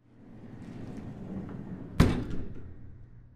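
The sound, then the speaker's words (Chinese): An elevator door closes with a single sharp thud, a brief loud impact over a low, steady background murmur, then a short fading tail. “电梯门刚关上”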